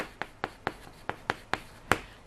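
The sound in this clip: Pen writing shows as seven short, crisp ticks of the tip on the surface, spaced in a fairly even rhythm with a slightly longer gap midway and a stronger last tick. The ticks are faint and no one speaks.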